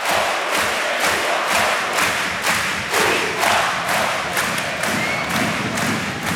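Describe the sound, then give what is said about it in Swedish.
Ice hockey crowd singing and chanting in a Gothenburg arena after a goal in a Frölunda–Växjö game, carried on a steady, loud beat of rhythmic thumps or claps that pulses evenly throughout, with no one speaking. “3-2 till Frölunda mot Växjö. Och ni hör vad de sjunger i Göteborg.”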